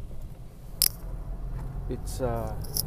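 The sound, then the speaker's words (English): A single sharp click, compared to a finger snap, stands out briefly over a low background hum, followed by a few fainter ticks and a short voiced sound near the end. “It sounds like a click. It sounds like Thanos's click.”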